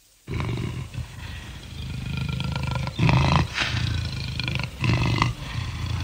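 A lion roars in deep, rumbling growls that run on without pause, swelling into a few louder surges.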